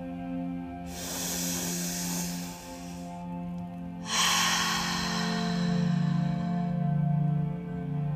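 A big, deep, slow breath is taken during a morning breathing practice. Two long airy breath sounds, separated by a short pause, sit over soft, steady background music tones.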